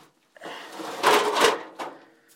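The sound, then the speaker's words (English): A metal box is shifted aside with a few scraping, clunking knocks of varying loudness, the heaviest two close together near the middle, then a softer final bump. “And move that metal box out of the way.”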